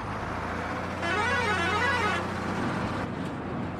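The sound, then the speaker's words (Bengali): A deluxe bus sounds its horn as it sets off: one sustained, slightly wavering honk rises over a steady engine and road rumble, then fades back into the running engine. “দুবার horn দিয়ে deluxe বাস রওনা দিয়ে দিল”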